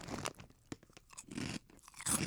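Crisp crunching of truffle-flavored Korean crackers being bitten and chewed, a few sharp brittle bursts separated by short pauses, with no talking.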